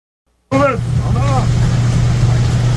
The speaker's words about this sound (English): ICE agents driving through LA, and they're trying to leave this protest, this riot.